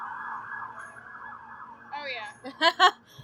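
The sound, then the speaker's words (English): An emergency vehicle siren wails on a street in Chattanooga, a steady wavering tone that holds for nearly two seconds and then gives way to a short burst of voice at the end. “But wouldn't be a day without sirens.”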